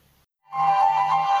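A phone rings with an incoming call. After a short near-silence, a single sustained electronic ringing tone starts and holds steadily and loudly to the end.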